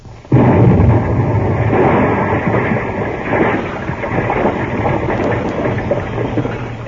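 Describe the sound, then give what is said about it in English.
A blasting charge goes off to free someone wedged tightly in a tub: a sudden loud burst, then a dense, crackling roar that stays loud for several seconds before easing slightly. “Oh, yes, I will. I'm going to blast. Blast? Stand back.”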